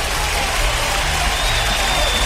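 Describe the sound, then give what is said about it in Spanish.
Applause greeting a morning caller from Molina: a steady, dense wash of many hands clapping that holds evenly for the whole moment, with a faint low hum beneath. “un aplauso para Molina, claro que sí.”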